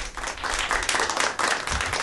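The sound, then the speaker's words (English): A round of applause from a crowd: dense, steady clapping that holds at an even loudness for about two seconds, with no voices standing out. “Round of applause for Carly Fiorina.”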